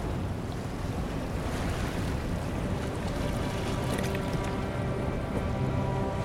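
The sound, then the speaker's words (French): Harbour ambience in the port of New York, with a steady wash of waves and moving water and the low drone of small motorboats, a continuous blended noise with gusts of wind and no distinct separate events. “Il contemple le port de New York où la vie suit bien son cours. Des petits bateaux à moteur, des péniches chargées de tonneaux”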